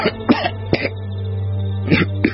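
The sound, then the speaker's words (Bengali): Harsh, explosive coughs from a seventeen-year-old boy who has choked mid-laugh, a few sharp bursts spaced by pauses over a steady low hum. “বিষম খেয়ে থেমে যায়, কাশতে কাশতে বেদম হয়ে পড়ে।”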